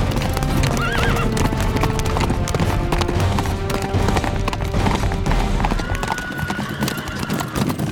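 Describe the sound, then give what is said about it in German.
A horse-drawn carriage travelling on a cold night: steady, loud clip-clop of hooves runs throughout, with a brief horse whinny near the start over a dense background. “Als die Kutsche schließlich vor Rumpelstilzchens Refugium hielt”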